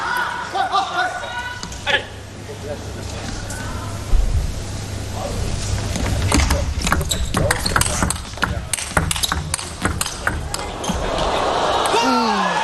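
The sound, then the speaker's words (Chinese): A table tennis rally with a serve and its return: quick, sharp clicks of the ball on bats and table come in a fast run, mixed with murmurs and chuckles under steady commentary. “这发球接得有点冒高，富商省府现在也是想拼命从林诗栋的正手去得分。”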